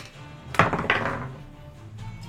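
A dice roll in a tabletop role-playing game: one sharp knock, then a brief clattering tumble that fades within about a second.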